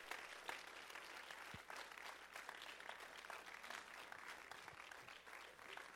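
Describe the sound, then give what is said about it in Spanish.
Faint applause from an audience giving praise to the Lord in a bilingual church service, a steady, continuous patter of many clapping hands with a few sharper individual claps standing out. “Let's give the Lord a hand praise.”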